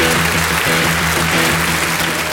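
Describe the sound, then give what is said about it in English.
An audience applauds a guitarist taking the stage at a classic rock awards ceremony at London's Roundhouse, producing dense, continuous clapping that stays loud and even throughout. “Please put your hands together now and welcome to the stage, the guitar legend that is Mr. Jimmy Page.”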